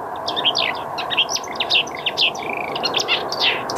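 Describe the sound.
Birdsong from a thrush and a tit, with many quick, high chirps and short whistled phrases overlapping above a steady hiss.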